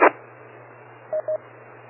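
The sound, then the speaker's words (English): Two short, steady mid-pitched beeps from a ham radio transceiver keying up with WIRES mode enabled, sounding a moment apart after an opening click, over a constant low hum and faint static. “I key up with wires mode enabled. All I hear is a beep a couple of times as I go.”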